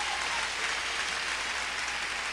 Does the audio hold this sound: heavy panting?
no